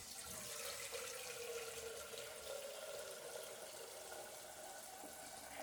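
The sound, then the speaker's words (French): Water pours steadily into a flask, a faint, continuous rushing hiss without pauses or voices. “Tu te remplis une gourde.”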